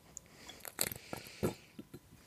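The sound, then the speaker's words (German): A faint sip from a bottle, with a few soft mouth and swallowing noises and light handling clicks, quiet and without speech. “ich muss noch mal einen Schluck trinken”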